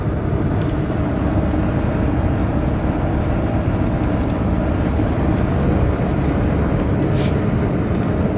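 A motorhome drives along a road, giving a steady, dense low rumble of engine and road noise that stays even throughout with no breaks.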